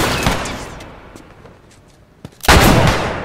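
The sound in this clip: Video game gunfire: one loud shot is followed by scattered faint cracks, then a heavier, sustained blast near the end. There is no talking.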